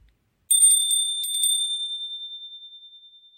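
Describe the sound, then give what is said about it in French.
Door chime ringing at a home on Christmas: a bright, high-pitched bell tone struck at the start, with a second brief cluster of strikes, then a long, pure ringing that slowly fades. “Le carillon retentit de nouveau. Ding dong.”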